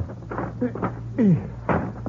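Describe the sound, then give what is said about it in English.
A window being opened gives a few dull knocks and a short squeaky creak over a low steady hum. “Will you help me open this window?”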